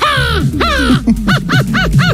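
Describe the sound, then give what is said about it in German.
A 12-year-old boy imitates a crow's caw with his voice, giving a run of loud, harsh nasal caws: two long drawn calls followed by four shorter, evenly spaced rasping bursts. “Er kann Vogelstimme nachmachen. Die Krähe.”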